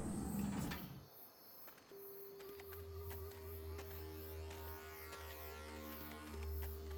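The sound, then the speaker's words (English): A hatch slides open with a soft mechanical thunk, then a low steady hum and sustained electronic tones carry on, faint and without voices. “Confirm green Atmos. Beacon powered. Hatch opening.”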